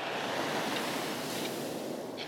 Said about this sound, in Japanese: 波も比較的穏やかで、風もなく過ごしやすいです。